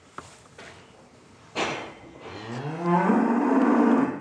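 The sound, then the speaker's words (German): Calves moo in a cattle barn, one long, low moo swelling in loudness through the second half, preceded by a few faint knocks and a dull thud. “Es wird ein spannender Tag für die vier Kälber.”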